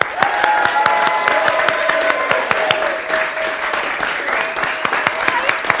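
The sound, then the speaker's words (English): Audience applause welcomes an award-winning actress arriving as a guest for the evening: many hands clap in a brisk, sustained burst with sharp individual claps standing out, holding steady throughout. “ladies and gentlemen, if I could ask you to give a really warm hand on my wonderful guest this evening, award-winning actress Rosie Cavaliero.”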